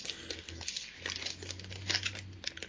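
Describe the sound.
Typing on a keyboard: many quick, irregular clicks and taps run throughout at low volume, over a faint steady low hum, with no voices.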